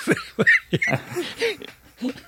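A few throaty, phlegmy coughs come in short bursts, mixed with wheezy, voiced breaths that rasp between them.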